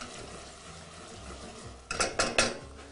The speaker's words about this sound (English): So now that we're frying our basil leaves in here,